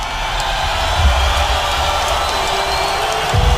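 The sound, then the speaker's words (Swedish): An arena crowd roars and cheers as Conor McGregor steps into the spotlight for a fight: a loud, dense, sustained roar mixed with whoops and shouts that stays intense throughout. “När Connor kliver ut i strålkastarljuset stiger publikens jubel till nya höjder.”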